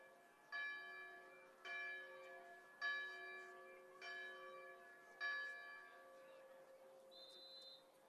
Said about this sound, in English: the cheerleader who's uh, tasked with bell ringing today, she's going to have sore arms.